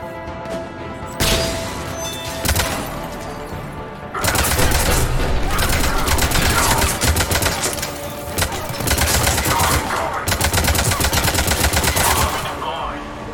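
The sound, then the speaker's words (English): Turret gunfire in a video game: rapid automatic shots in a couple of short bursts, then long, loud, sustained volleys broken by a few brief gaps. “Oh, this is the turret that's shooting at me.”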